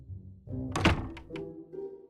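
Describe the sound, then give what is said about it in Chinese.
A room door is shut with one heavy, dull thunk, followed by a couple of fainter knocks. “八一老爷摇着头，和自己的妻子躲进房间，还关上了门。”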